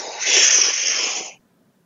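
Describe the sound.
One big breath drawn in during a breathing exercise, a loud, airy, hissing inhale lasting just over a second, heard alone and cutting off abruptly into silence.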